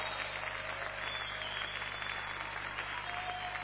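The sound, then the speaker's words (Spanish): An audience applauds during church worship: steady, dense clapping holds at an even level for the whole stretch, with no break. “aplaudimos a ti, Señor. Te aplaudimos a ti, Jesús.”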